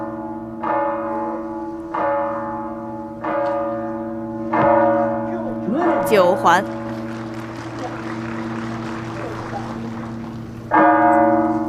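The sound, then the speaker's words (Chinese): A harsh bell clangs at a shooting competition venue, five ringing strikes each leaving a long humming tail, with a voice speaking briefly in between. “今天现场的噪音还是比较多的啊，像这种比较刺耳的敲钟的声音，还是会对选手有一定的影响。”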